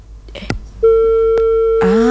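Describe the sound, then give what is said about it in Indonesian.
A telephone line gives its tone after a call is disconnected: a few brief clicks, then a steady, loud electronic tone that holds unbroken to the end. “benar, terputus sambungan teleponnya ternyata.”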